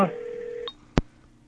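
A telephone line tone follows a caller hanging up, a steady hum lasting about two-thirds of a second, then a brief higher blip and a single sharp click before near silence.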